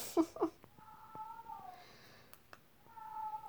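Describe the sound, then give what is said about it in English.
A pet cat meows. Two short sharp sounds are followed by a drawn-out, steady meow, then a second tonal cry near the end. Faint background noise sits under it. “Yeah, that's my cat.”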